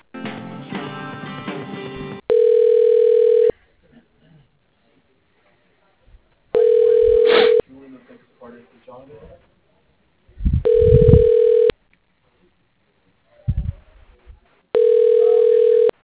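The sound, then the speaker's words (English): Telephone ringback tone as a call is transferred to voicemail: four steady, evenly spaced tone bursts of about a second each, separated by quiet gaps, after a short stretch of other sound at the start. “can you patch me through to that voicemail then? Of course. One moment, please.”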